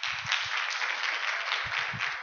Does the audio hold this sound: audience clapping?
yes